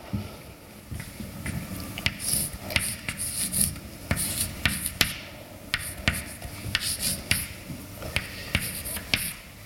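Writing on a board during a mathematics lecture makes many short scratching and tapping strokes in an irregular rhythm. The strokes are fairly quiet, with a low hum underneath and no talking.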